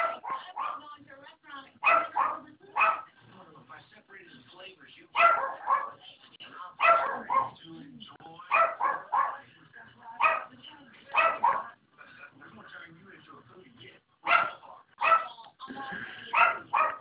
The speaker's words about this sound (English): That sounds like a poodle. Nope. That's our little dog that we got. We rescued it. because it was abused.